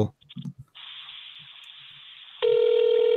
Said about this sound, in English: Oh, we're getting rings. It's not voicemail.